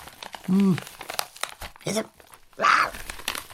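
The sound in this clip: Paper crinkling as someone rummages through an envelope, a few short, loud rustling bursts with brief vocal sounds between them.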